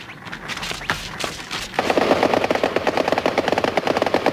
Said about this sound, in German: Hör doch auf zu schießen. Nicht schießen.